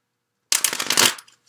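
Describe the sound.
Tarot cards are being shuffled in a quick, dense crackling riffle that lasts under a second and then stops abruptly, heard alone.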